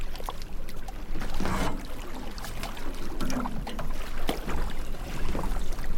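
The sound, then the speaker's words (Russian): A tiny drifting boat is rowed with an old board, and water splashes and swishes with each stroke. The strokes come at irregular intervals over a continuous watery hiss and trickle. “Вид с высоты птичьего полета на дрейфующую крошечную лодку. Макс гребет старой доской.”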